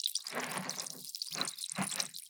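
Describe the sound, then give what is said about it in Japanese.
Tiny bubbles clinging to the side of an ear fizz and pop in faint, crackling bursts. The bursts come in a few irregular clusters with brief quiet gaps between them. “お耳の側面に小さな泡がいっぱいついて、パチパチパチパチって弾けるの。”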